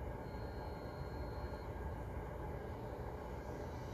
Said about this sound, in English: What? An airplane?